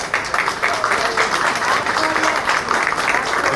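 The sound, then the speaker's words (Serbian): Dense, sustained applause from an audience honouring a musician and arranger, loud and even from start to finish with no pauses. “ja vas molim da još jednim aplauzom pozdravimo Gabara.”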